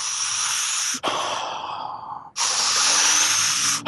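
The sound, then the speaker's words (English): Continuous breathing exercise with long, airy breaths that flow one into the next without pauses, about three steady hissing phases, each fairly loud and smooth. “And this continuous breathing, however, it could be quite quick, or it could be very slow.”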